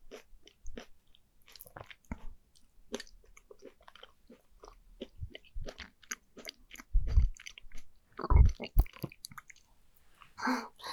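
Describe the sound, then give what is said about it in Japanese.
Throat gulping while eating, with soft, close chewing and many small crunchy clicks and wet squishes throughout, broken later by a couple of deeper, louder gulping thuds. “喉が鳴っちゃった。恥ずかしい。”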